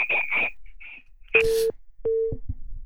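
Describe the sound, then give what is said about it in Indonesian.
Telephone tones signal an incoming call: a few short, high beeps, then two longer, lower steady tones separated by a brief gap. The tones are clear and fairly loud, with no talking. “nggak tahu nih siapa yang telepon ya.”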